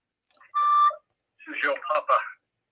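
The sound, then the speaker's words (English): An incoming phone call is answered: a single steady electronic phone tone sounds, then a short voice speaks over the phone line. “I actually have a caller. We're going to answer the call.”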